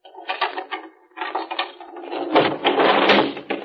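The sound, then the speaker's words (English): A desk being opened, heard as mechanical rattling and scraping in a few bursts. The sound grows into a louder, continuous clatter toward the end, with no voices over it. “Just a second, I'll open the desk.”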